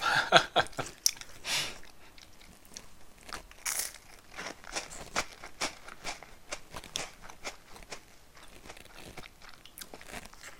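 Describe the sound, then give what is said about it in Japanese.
Crunching and biting of Ritz crackers as someone eats them: many sharp, irregular crackly bites and chews, loud at first and then a dense run of smaller crunches. “こんなリッツクラッカー食いながらね”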